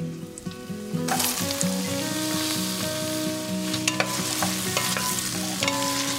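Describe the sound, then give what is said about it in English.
Carrots added to onions and garlic frying in a pan: a loud, steady sizzle jumps up about one second in, with scraping and clattering of stirring running throughout. “The onions and the garlic are fragrant, and now I'm going to add the carrots.”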